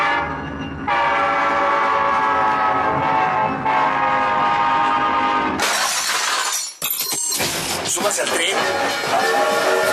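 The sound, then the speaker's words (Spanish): A train horn blares a sustained, multi-toned chord over rolling rail noise. The sound then breaks into a loud, dense clatter with sharp, glassy crashes. “Súbase al tren. Súbase al tren.”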